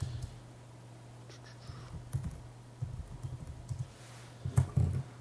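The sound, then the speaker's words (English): Typing on a computer keyboard during a student orientation demonstration: quiet, irregular keystroke clicks come in small clusters, growing busier toward the end, with no one speaking. “It's going to take me a second to type this in.”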